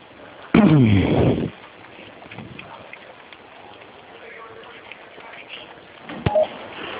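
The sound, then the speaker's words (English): Telephone-line tones sound as an emergency call is transferred to Houston Medical: a loud burst of warbling electronic tones lasting about a second, then quiet line hiss and a short click near the end. “You're being transferred to Houston Medical.”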